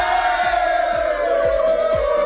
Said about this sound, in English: You get a cheer for that. Yay!